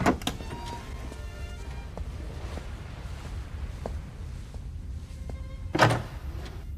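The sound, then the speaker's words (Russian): A door closing gives a soft, solid thunk with a brief rattle near the end. A smaller knock comes at the start, over a faint low background. “Он слышит, как закрывается дверь и идет через комнату на звук.”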